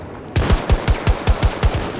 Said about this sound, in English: Who's that shooting at?